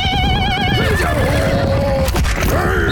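A horse on the Mongolian steppes neighs loudly in a long, quavering whinny that wavers and then falls in pitch. A second, rising whinny follows near the end over a steady low rumble.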